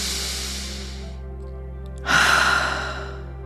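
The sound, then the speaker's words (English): A deep cleansing breath during a guided breathwork session for compassion: a long airy breath fades out, and after a short pause a louder, sighing release follows, over soft sustained background music. “Taking a nice deep cleansing breath.”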